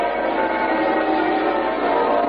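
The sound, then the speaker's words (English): A peal of muffled church bells rings out over rooftops during a state funeral procession, a dense, continuous wash of softened overlapping tones that stays steady in loudness throughout. “Peal of muffled bells rings out over the rooftops.”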